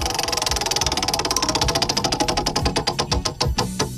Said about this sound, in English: I'll spin the wheel of topics.